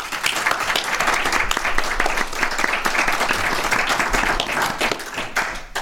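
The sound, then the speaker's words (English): A big round of audience applause: dense, even clapping that holds at a steady, full level for about six seconds with no talk over it. “let's hear a big round for the good folks who brought us out here.”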